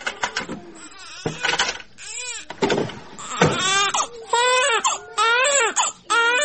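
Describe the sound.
A baby cries indoors in a room, giving repeated loud, wavering wails with short breaks between them, while people talk in the background.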